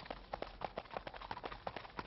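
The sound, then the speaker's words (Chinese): Horse hooves clip-clop in a quick, steady rhythm of many soft, hollow knocks. “你们听啊，我听见后面有马蹄声，哎，是不是啊？”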